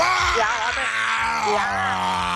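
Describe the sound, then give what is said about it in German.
A person's voice imitates a dinosaur roar: one loud, drawn-out groaning growl whose pitch wavers up and down throughout. “Also ich würde ja brüllen, so wie so ein Dinosaurier. Ja. So.”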